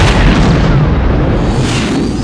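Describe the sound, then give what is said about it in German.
A freighter blows up after a torpedo strike, a loud, deep, sustained rumbling blast that fills the whole moment without separate distinct bangs. “Er hat den Frachter gesprengt.”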